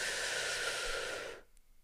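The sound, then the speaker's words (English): A single long, deep breath, a steady breathy hiss held for over a second before it cuts off into near silence. “I'd like to take a giant, big, deep breath and out. And one more, breathe in”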